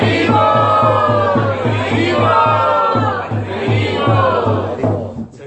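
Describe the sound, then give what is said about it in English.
A church community's crowd of devotees chants loudly to welcome a visiting Maharaj. Many voices blend into a sustained, forceful chant over a steady, regular rhythmic pulse, and it continues strongly throughout. “we welcome Maharaj by very loudly chanting.”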